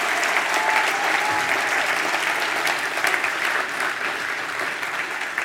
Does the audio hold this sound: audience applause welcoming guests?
yes